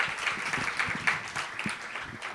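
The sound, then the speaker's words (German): Audience applause for the reigning Austrian champion as she is introduced at a competition semifinal: loud, dense, continuous clapping throughout. “Bitte macht einen 10-Punkte-Applaus für die amtierende österreichische Meisterin.”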